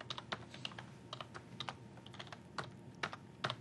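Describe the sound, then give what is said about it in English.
Typing on a computer keyboard while entering login credentials: faint, irregular keystroke clicks, a few quick taps scattered with short pauses between them. “If I can type the same thing. Okay, probably typed the first one wrong.”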